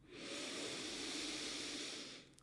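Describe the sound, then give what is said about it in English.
A big, slow breath is drawn in during a guided breathing practice: one long, steady, airy hiss that swells quickly, holds evenly for about two seconds and then fades. “Let's take a big breath in.”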